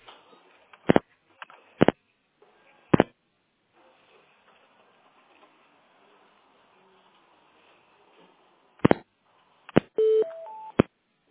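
Telephone keypad tones sound while a store call is transferred to another department: a few short, sharp beeps spaced apart over a faint line hiss, then a quick rising three-note signal and a brief steady tone.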